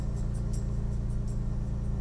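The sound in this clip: A big, somewhat dirty car's engine runs steadily, with a deep low rumble and a regular pulsing throb. Faint higher ticks recur over it, and no one speaks.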